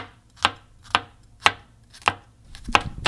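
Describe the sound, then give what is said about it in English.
A knife crushes and slices garlic on a board, giving a steady series of sharp, crisp chopping knocks about half a second apart, with soft scraping between strikes and no talking. “All right, so the garlic is being crushed slash sliced.”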